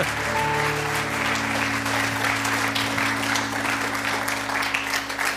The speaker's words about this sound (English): Please put your hands together for Mike and Pastor Mike and Janie Ware.